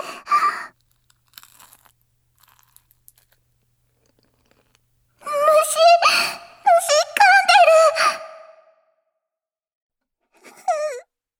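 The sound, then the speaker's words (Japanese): Chewing food: a short burst of crunching at the start, then long stretches of high, wavering whining moans that rise and fall, with a brief whine near the end. “よしよし、噛み噛みしようね。”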